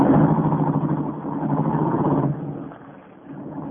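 A car engine hums steadily while the car is driven at night. The even, moderate rumble continues throughout and softens briefly near the end.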